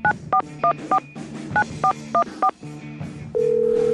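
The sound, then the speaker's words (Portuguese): Touch-tone telephone keypad dialing an international number: eight short beeping tones in two quick groups, followed by a steady continuous tone at the end. “Vamos lá, refazendo aqui todo o processo. Discando aqui. Código internacional.”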